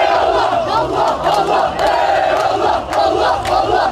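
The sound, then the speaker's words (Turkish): A loud crowd of Fenerbahçe fans chants and shouts on Bağdat Avenue, celebrating a Turkish Cup win over Trabzonspor with flares and long convoys. The roar is dense and continuous, swelling and dipping in rhythmic surges. “Meşaleler yakıldı, uzun konvoylarla Bağdat Caddesi şenlik alanına döndü. Fenerbahçe'nin Trabzonspor'u yenerek Zira Türkiye Kupası'nı kazanması taraftarını sokağa döktü.”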